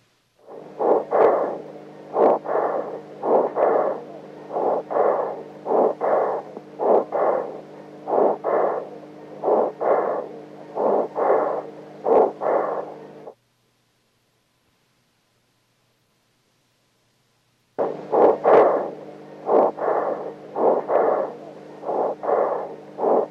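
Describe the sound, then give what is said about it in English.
Recorded infant tracheobronchial breath sounds, a fast, even train of short, harsh breathy bursts repeating in steady rhythm, broken by a few seconds of silence before the same quick cycle resumes. “We now turn our attention to infant lung sounds, tracheobronchial breath sounds.”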